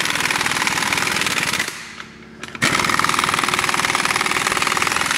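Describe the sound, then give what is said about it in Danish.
A power tool drives wheel bolts in a workshop with a loud, rapid hammering rattle. It drops off briefly partway through, then resumes at full force. “Så jeg prøver at køre dem lige løst ind først her. Det larmer lige lidt. Det lyder, som om vi er på et værksted.”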